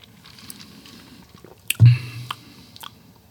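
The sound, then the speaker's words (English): Someone chews a piece of Cake Bomb cake in a few soft, moist, squishy bites, with one louder, wetter bite standing out midway over a faint background. “So the cake, I don't know. Let me taste it.”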